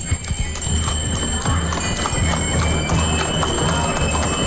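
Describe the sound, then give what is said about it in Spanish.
Horse hooves clip-clopping steadily while pulling a wooden cart in a procession through a town centre. The rhythmic beats sound over a constant wash of background noise. “Y me voy a acercar, los voy a esperar para que se escuche ese sonido. Y si no me equivoco, se escuchan hasta los cascos, ¿verdad?”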